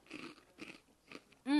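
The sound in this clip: Bites into a crunchy croquette: a few faint, dry crunching bursts spaced apart, followed by a brief, louder tonal sound at the end.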